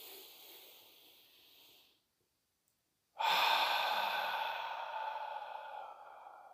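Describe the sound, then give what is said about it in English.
A guided breathing exercise: a deep breath drawn in through the nose as a soft, airy hiss, then a short silence. A louder, long sighing exhale follows and slowly tapers off. “And then I want you to take Deep breaths in through the nose on a count of five.”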